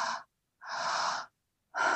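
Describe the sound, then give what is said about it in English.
Breathing during a guided practice for energy and focus: three airy, hissing breaths with silent pauses between them, the middle one longest at under a second, soft and unaccompanied by talk. “notice, can you just allow that exhale to release, just letting gravity, atmospheric pressure, your muscles, just to release the breath.”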